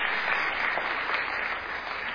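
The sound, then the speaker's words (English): Audience applause at an award ceremony, an even, continuous patter of many hands clapping, fairly faint and without breaks. “I think the round of applause is necessary for the wife.”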